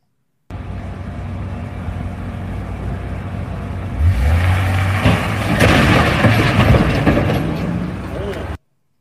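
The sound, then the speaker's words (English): A U-Haul truck crashing into a security gate near the White House: steady rumbling noise, then an engine tone swelling midway and a loud, harsh crash burst with clattering debris that lingers until the end. “This is the crash right here.”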